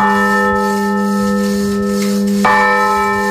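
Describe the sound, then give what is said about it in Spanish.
Church bell of Santa Maria in Granyena de Segarra, cracked by frost in 1941 and repaired by a specialist Austrian firm with a rebuilt yoke, rings with a loud sustained tone rich in overtones, struck again once near the end. “la campana de l'església de Santa Maria torna a sonar després de 85 anys de silenci”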